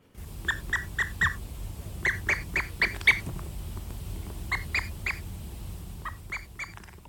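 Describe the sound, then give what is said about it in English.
Atlantic puffins call in rhythmic groups of harsh, rasping, squawk-like notes, several bursts in quick succession, then a pause before the next set, moderately loud over a low background hum. “so what kind of puffin are we listening to there? Be an Atlantic puffin.”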